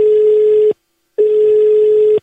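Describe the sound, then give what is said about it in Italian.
Telephone ringing tone on a radio call-in line: two long, steady buzzing tones at one low-mid pitch, separated by a short gap of silence, with no voices. “vai telefono”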